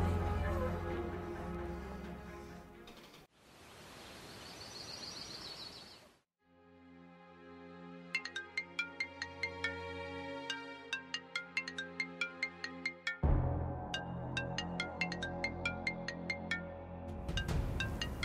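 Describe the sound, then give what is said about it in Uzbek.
A mobile phone ringtone plays a bright, repeating melody of many short electronic notes, sounding for several seconds. Noisy stretches with voices come before it, and the tune carries on under people talking. “Rosa telefon qildi-ya, boyadan beri jing'illaydi telefoningiz.”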